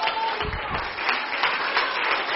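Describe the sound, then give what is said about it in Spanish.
Audience applause during an evangelical church service, a dense, steady wash of clapping that holds at an even, fairly loud level throughout. “Dale ese aplauso al Rey.”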